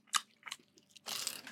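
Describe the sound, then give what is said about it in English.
Crunching and chewing from people munching a homemade sandwich, popcorn and chocolate: two short crisp bites, then a longer, denser burst of crunching, with no talk. “Well, no, as soon as the podcast started, we all just started munching.”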